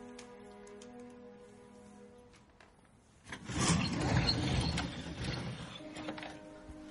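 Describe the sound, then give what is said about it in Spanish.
A bedroom door in a house being opened: a sudden rough, rushing creak about halfway through that fades slowly, following a quiet stretch, with soft sustained music underneath. “Joaquín abre la puerta de un dormitorio del piso principal”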